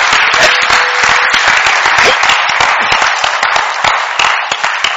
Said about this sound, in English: Come on, let's just give them a hand and honor.